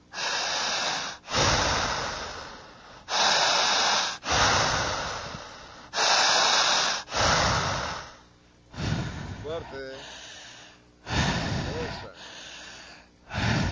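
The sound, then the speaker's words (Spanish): People draw forceful breaths deep into the belly during a breathing exercise: many loud, rushing inhales and exhales follow in a steady, repeated rhythm. “Vamos a jalar el aire con mucha fuerza, igual que yo.”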